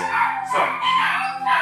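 Dogs barking and howling in a video game make a sustained, tonal, whining sound broken by a few louder bursts, with no talking.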